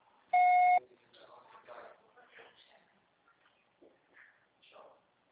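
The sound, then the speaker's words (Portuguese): A voicemail beep marks the start of message recording: a single steady electronic tone, clear and loud, followed by faint talking. “você só será tarifado após o sinal. Grave seu recado.”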